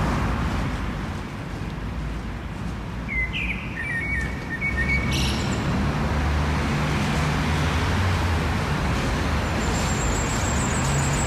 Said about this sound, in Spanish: Aquí se escucha tráfico. Sí, estamos en el centro